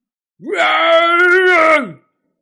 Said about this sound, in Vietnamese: Ngưu đầu nhân phẫn nộ gầm lên, đã tới trước người La Phong rồi.